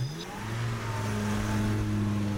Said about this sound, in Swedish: Nu närmar sig bilen Liberias huvudstad Monrovia